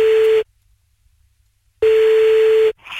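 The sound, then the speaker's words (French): An outgoing call rings on a telephone line: a steady, loud single-pitched ringback tone sounds twice, each burst under a second long, separated by a long silent gap. “Allez, on y va, on l'appelle.”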